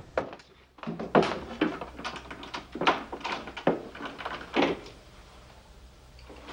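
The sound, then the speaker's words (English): The back door of an apartment is being locked, with a series of wooden thumps, knocks and small clicks spaced irregularly, some louder than others, before the sound fades to quiet. “He hurries through the apartment to the back door, which he locks, then checks.”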